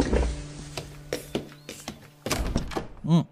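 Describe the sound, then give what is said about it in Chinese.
Knocking on a door comes as a series of dull, irregular thuds at varying loudness, followed by a short vocal sound at the very end. “门被敲响了。我有些不舍地放下碗筷前去开门。”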